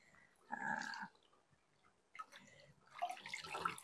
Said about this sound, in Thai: เราทำผ้าเราอะให้เปียกหมาดๆก่อนก็คือจะนำผ้าจุ่มลงไป6 ผืนเลย